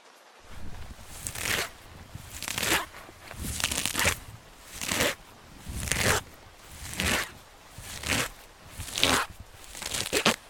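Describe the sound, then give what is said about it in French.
Grass, leaves and laurel branches rustle in about ten regular, evenly spaced bursts of crisp crackling, each swelling and fading like a sweep through foliage, with no voices. “C'était quoi ça? C'était le bruit de l'herbe, le bruit des feuilles, les bruits de branches, le laurier.”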